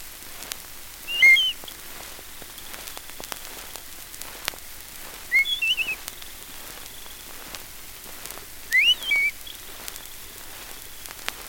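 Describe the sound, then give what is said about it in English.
Wood thrush song: three short, fluty, high phrases spaced a few seconds apart, clear but not loud, over a faint crackling, hissy background. “Wood thrush.”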